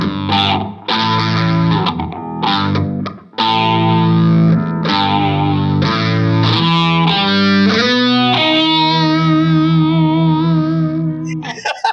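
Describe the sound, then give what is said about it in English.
Distorted electric guitar from a Fender Coronado II, played through an octave pedal and phaser into a trashy-sounding amp. Loud sustained notes and chords carry a low growl, and later notes swirl and warble under the phaser. “With the octave on it and kind of that trashy PV amp sort of sound. I should put a little more phase on there.”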